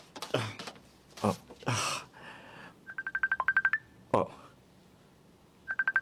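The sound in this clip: Touch-tone keypad beeps as a telephone number is dialed: a quick run of many short, even beeps, then a few more after a pause, with a person talking briefly before and between them.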